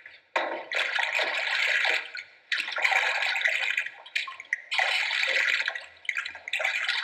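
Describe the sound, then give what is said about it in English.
Running water pours over hands being washed before a patient is touched, a steady broad hiss that is interrupted by a few short breaks as the hands move in and out of the stream. “In case you've never done it, this is known as washing your hands.”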